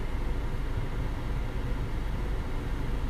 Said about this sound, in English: That sound you hear is not static. Fucking AC in my car. I'm trying to get the temperature down.